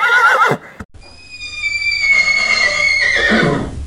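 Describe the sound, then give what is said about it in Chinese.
A horse gives a loud, drawn-out whinny as a horse-drawn carriage sets off. The high, wavering neigh holds for several seconds before it trails away. “第二天，老方就依照这位唐公子的吩咐，叫仆人套了马车。”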